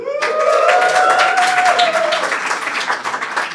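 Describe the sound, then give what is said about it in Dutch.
Loud, steady applause from an audience in a comedy club as a DJ and café owner is introduced, dense clapping holding strong for the whole stretch. “Een applausje voor onze DJ en cafébaas Tim.”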